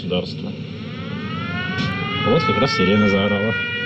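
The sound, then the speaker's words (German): An air-raid siren wails in wartime Zaporizhzhia, Ukraine, its steady tone slowly climbing in pitch over several seconds beneath a loud background, with voices audible alongside it. “Jetzt heult die Sirene, wie passend.”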